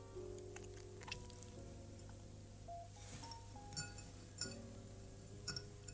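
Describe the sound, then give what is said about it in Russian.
Glasses clink together in a toast at a celebratory gathering. Several bright, brief chinks sound at irregular moments, faint against a quiet background. “Чокаются. Яков. Яков тоже чокается бокалом с каким-то напитком.”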